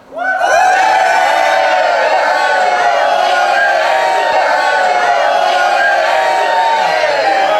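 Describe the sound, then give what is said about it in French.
A crowd cheering and whooping in a standing ovation for pioneers of community-supported agriculture in Quebec. The loud, sustained voices rise quickly and hold strong to the end. “Allez, tout le monde debout pour une ovation à tous nos pionnières et pionniers de l'ASC.”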